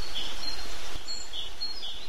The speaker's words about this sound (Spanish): Abro la ventana y oigo el piar de los pájaros en el árbol de enfrente.